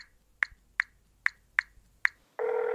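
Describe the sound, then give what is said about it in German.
Telephone dialing: five short, bright tone beeps at steady intervals, followed by a continuous ringing tone that starts and holds to the end, with no voices. “Sollen wir Jacqueline einfach mal anrufen? Na klar!”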